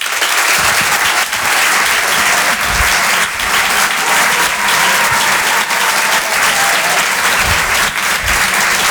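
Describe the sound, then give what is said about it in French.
Loud, sustained applause from a comedy club audience, heard alone as a thick, steady roar of many clapping hands that barely dips throughout. “Merci d'applaudir très fort”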